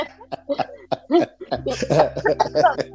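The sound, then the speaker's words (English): Coughing from a person with a COVID cough, many short, harsh bursts in an uneven rhythm over a few seconds, some with a voiced, throaty edge. “Got this COVID cough.”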